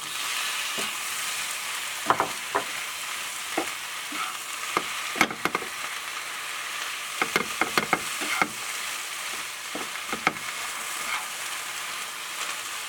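Squid is stir-fried in a pan with salted egg yolk, giving a steady, soft sizzle. Many brief clinks and scrapes of stirring are scattered throughout.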